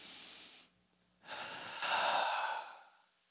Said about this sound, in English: I feel like we need to take a deep breath together.